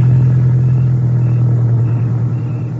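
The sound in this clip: Low, steady engine rumble of a car being driven one-handed, loud and unbroken throughout, easing off slightly toward the end.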